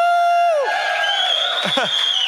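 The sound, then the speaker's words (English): A church audience cheering after a pastor announces service times. A voice carries over scattered crowd whoops and shouts, with bright, warbling cries that rise and fall near the end. “everybody that just cheered”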